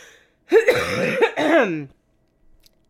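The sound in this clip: Coughing and throat clearing come as one rough, raspy bout of about a second and a half, broken by a short pause, then fall to near silence with a faint click at the end.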